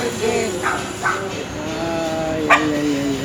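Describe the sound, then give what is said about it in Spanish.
Dogs, female ones, yip and whimper in a few short bursts over a steady background hum, with one sharper, louder cry near the end. “¿Qué pasó? Las perras.”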